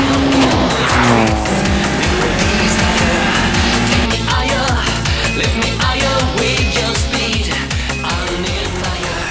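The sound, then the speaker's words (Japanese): Sports cars, including a GT-R, race hard on a Gunma mountain road: loud roaring engines with tires squealing and skidding through corners, a dense continuous sound with no talk. “高橋涼介が飛び出していったぞ。 2台の後ろを追走する気だ。”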